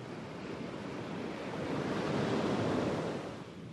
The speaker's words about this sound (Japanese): 雲が流れていきます風が木々や波を揺らします